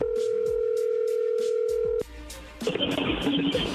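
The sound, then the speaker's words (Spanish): A telephone line tone: a steady pitched tone holds for about two seconds, cuts off, and gives way to a brief burst of noisy clatter. “Sí, dele, márquele. A ver si le contesta.”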